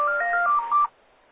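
A telephone rings once with a short electronic warble of alternating tones that lasts under a second, then stops.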